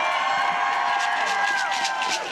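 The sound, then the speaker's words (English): An audience at a rally cheers to honour the water protectors. Continuous crowd noise carries high whoops and shouted cries at a steady, moderate level. “I want to again acknowledge our water protectors, and if we can give them a round of applause, please.”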